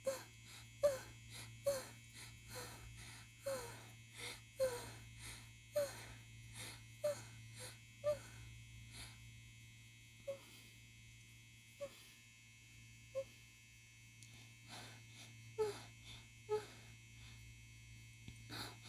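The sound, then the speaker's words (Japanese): A low, steady electric buzz from a vibrating rotor toy runs throughout, faint, beneath a series of short, regularly spaced breathy vocal sounds. “ローターで当ててます。”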